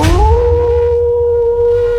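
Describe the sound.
A wolf howl sound effect: one loud, sustained tone that glides upward at the start and then holds steady, over a low rumble.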